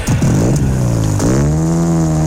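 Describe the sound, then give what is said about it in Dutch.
A car engine revs loudly in two bursts. Each one climbs quickly in pitch and then holds a steady, throaty drone as the car accelerates. “Beetje gas geven.”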